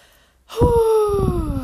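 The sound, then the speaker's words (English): A single deep breath drawn in sharply, gasp-like and loud on its own, carrying a faint voiced tone that slides slightly lower as it is held. “Deep breath.”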